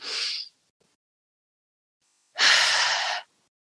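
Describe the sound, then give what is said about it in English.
Deep breathing in a guided relaxation exercise: a short airy breath at the start, then silence, then a longer, louder breath. Both are soft and breathy, and no one speaks. “just in through your nose and out through your mouth, really expanding the belly into the chest, and then fully letting that just fall out of your mouth.”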